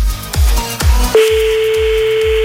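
A telephone call being placed: three low thumping clicks, then a steady single-pitched line tone that sounds continuously until the end.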